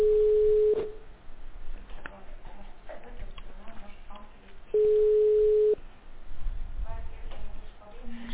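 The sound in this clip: Telephone ringback tone on a call being connected to a medical centre: two steady, mid-pitched beeps of about one second each, separated by a long gap with faint voices and line noise.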